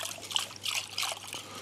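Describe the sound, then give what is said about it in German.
Milk is poured onto whisked eggs in a bowl for Kaiserschmarrn batter, giving a faint, continuous liquid trickle with light splashy patter and no voices. “Das heißt, wir haben hier die Eier, die verquirlen wir gut, gießen das Ganze mit Milch auf.”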